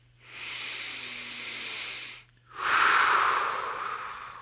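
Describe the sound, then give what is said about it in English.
A deep breath taken alone: a long, airy inhale of about two seconds, a brief pause, then a louder, hissing exhale. “step one, take a deep breath.”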